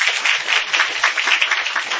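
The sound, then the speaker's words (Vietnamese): Audience applause at a Buddhist teaching session: dense clapping from many hands that stays at an even, fairly loud level throughout. “thấy chúng ta tán thán cho cổ một tràng pháo tay nữa.”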